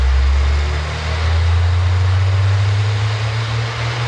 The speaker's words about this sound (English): Standing 50 feet from the trucks, it sounds like this.